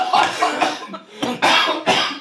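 A woman coughs after choking on something while recalling Christmas baking: several harsh, loud coughs in quick, uneven succession, with short gasping pauses between them.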